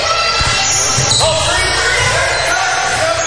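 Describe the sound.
A basketball is dribbled during a game, giving a few dull thuds under a steady wash of crowd noise in the gym.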